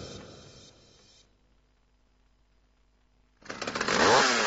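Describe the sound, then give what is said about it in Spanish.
Chainsaw cutting native forest, its loud engine snarl bursting in after a quiet stretch and swelling into a harsh, raspy whine that stays strong to the end. No voices. “Bosque vas a cortar bosque nativo.”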